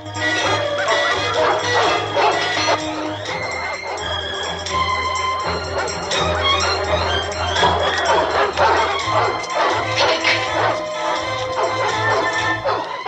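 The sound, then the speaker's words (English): Several dogs bark and yip excitedly as they are released from a caged enclosure to give chase, the barks overlapping in a loud, continuous burst over a low steady hum, with a few metallic clinks mixed in. “Three suited men release the dogs from their caged enclosure.”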